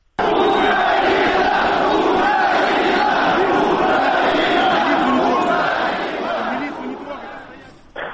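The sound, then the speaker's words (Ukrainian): A large crowd of Crimean Tatar and other Crimean protesters at a Euromaidan rally roars and chants together, a loud, dense mass of voices that holds steady before dying down near the end. “Понад 10 тисяч кримських татар і кримчан інших національностей, прихильників кримського Євромайдану, прийшли виступити проти можливих сепаратистських рішень Верховної Ради Криму.”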